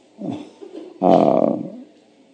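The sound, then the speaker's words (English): A voice imitates hankar, an ecstatic roaring cry of devotional love. A short low growling sound is followed by a louder, sustained throaty roar lasting under a second, which then fades. “Hankar, it's a sound like that. He thundered in ecstatic love.”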